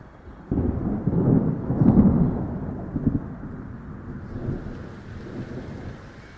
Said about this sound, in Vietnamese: Sau tiếng sấm đậm rung chuyển cả trời đất, trời bắt đầu đổ mưa.